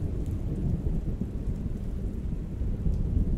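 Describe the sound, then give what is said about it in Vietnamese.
Thunder striking hard in a rainstorm: a deep, rolling rumble that stays loud throughout, layered with the steady hiss of falling rain and no voices. “Sấm sét đánh xuống một cái thật mạnh”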